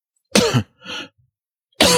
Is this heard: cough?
yes